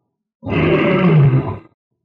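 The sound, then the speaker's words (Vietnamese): A deep, low roar rumbles from the huge mouth of a massive beast in one sustained, loud growling bellow lasting just over a second, heard alone. “Một tiếng gầm trầm thấp vang lên từ trong cái mồm to lớn của nó.”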